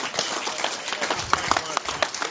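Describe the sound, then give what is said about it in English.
Audience applause at a gathering as a pastor is welcomed back to the stage: many scattered claps with a few sharper ones standing out, moderately loud and uneven throughout. “So let's give a round of applause. Let's welcome back up Pastor Dave Morse.”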